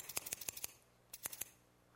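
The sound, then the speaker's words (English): Small scissors snipping: a quick run of crisp metallic snips, then a short pause and a shorter burst of snips, with no talk. “See these little scissors?”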